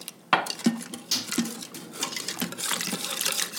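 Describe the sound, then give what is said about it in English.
Egg being whisked into hot milk and cooked rice in an Instant Pot: a whisk clinks and scrapes against the pot in quick, irregular strokes, with wet stirring sounds between them. No talk. “And now I'm gonna whisk this right into the Instant Pot with the hot milk and rice.”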